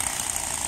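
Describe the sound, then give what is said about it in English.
Rapid flapping buzz of a playing card clipped to a bicycle wheel, slapping against the turning spokes, forming a steady, continuous rattle much like a small engine running, with no pauses. “That is the sound of a playing card. Mm-hmm. Attached to the wheel. Attached to the bicycle. Yeah. You're going around. The little spokes.”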